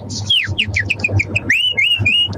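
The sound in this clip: A person whistles in imitation of a cuckoo call. A rapid run of short, high chirping notes is followed by a few longer, sliding whistles, clear over a faint low hum.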